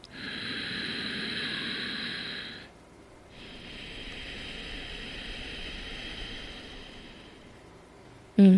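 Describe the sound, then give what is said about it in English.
A constricted-throat yogic breath makes an oceanic, whispery rush, one long steady breath, a brief pause, then a second, longer breath. A short louder sound cuts in at the very end. “So controlling and kind of constricting, creating this almost oceanic, whispery sound at the back of the throat, which sounds a little bit like this if you've never heard of it.”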